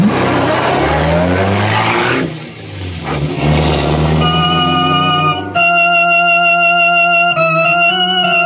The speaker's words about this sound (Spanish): El camión se pone en marcha.